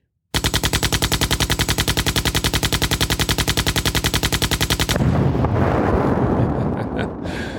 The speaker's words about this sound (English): Prepare yourselves for the machine gun drum roll.